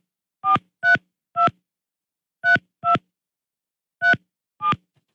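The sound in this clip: A telephone number dialed on touch-tone keys: seven short, clear beeps in uneven groups of three, two and two, separated by silence, with no voices.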